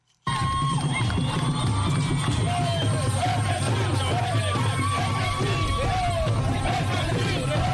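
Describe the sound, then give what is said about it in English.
Thousands of fans sing and beat drums at Juba International Airport to welcome South Sudan's men's basketball team, a loud, dense, unbroken din of voices and cheering over a heavy low rumble. “Thousands of joyous fans sang and beat drums at Juba International Airport this afternoon to welcome the South Sudan's men basketball team”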